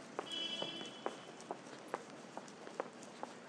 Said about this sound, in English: Only just overtaking the person with the clippity-cloppity shoes on the left.